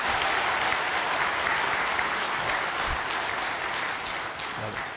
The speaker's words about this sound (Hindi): अच्छा लग रहा है तो दीदी जी के लिए एक बार जोरदार क्लैपिंग होना चाहिए।